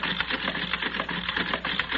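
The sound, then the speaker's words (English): A card-sorting machine runs with a dense, whirring mechanical clatter, made of rapid rhythmic pulses that hold steady throughout. “I'll set it in the machine. There. The cards for all the men are already in place. Good. Now we'll set the machine running.”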